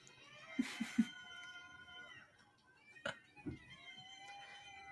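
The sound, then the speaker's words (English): Cat-like meowing from a film musical about cats: a few short, high, tonal cries close together, then a second group of cries a couple of seconds later, over a steady background hum. “Oh, no, I don't like the meowing. I don't like it.”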